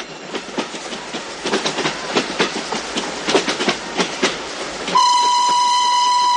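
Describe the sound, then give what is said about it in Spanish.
A train passes over railway tracks with a man lying between the rails. Its wheels beat out a steady clickety-clack of many sharp clacks, and then a loud, sustained horn blast takes over at the end. “Mientras, Alfredo se tumba sobre las vías cubriéndose los ojos con las manos y el tren pasa por encima de él.”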